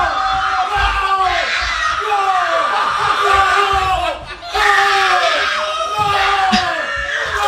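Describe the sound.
A family at home yells, screams and cheers at an Argentina football win. Many overlapping voices shout loudly and almost continuously, with a brief dip in the middle before the cheering surges again.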